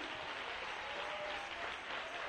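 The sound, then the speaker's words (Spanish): An audience applauds during a church service. The clapping is a faint, even, continuous wash with no clear break from start to end. “¡Oh, un aplauso de júbilo al rey!”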